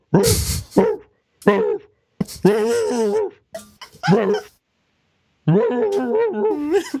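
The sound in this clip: A human voice imitates a dog in several separate bursts of whimpering, whining and yipping barks, high-pitched and wavering, with short silences between them.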